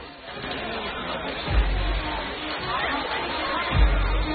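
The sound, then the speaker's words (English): A crowd of people mills about inside a stockade, a continuous murmur of indistinct voices and chatter, broken by two deep low thumps. “Still picking his way through the crowd of people, Hawkeye scans the stockade, searching the faces around him.”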